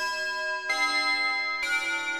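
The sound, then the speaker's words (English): A clock outside, heard as two distinct strikes about a second apart over steady ringing tones, with no voices. “Scrooge waits and listens to the clock outside.”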